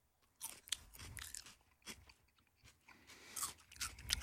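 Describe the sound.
Crisp crunching of a home-grown chili pepper from a terrace harvest, bitten and chewed during a live tasting: many irregular crunches, fairly faint, with no talk.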